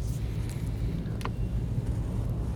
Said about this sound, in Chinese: 我也蛮喜欢这种，就一边开车然后一边录音。